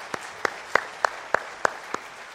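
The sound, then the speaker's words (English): Audience clapping at an evening gathering for children: seven crisp, evenly spaced claps in a steady, measured rhythm, each sharp and distinct. “I want you to give them all a clap this evening because they deserve it.”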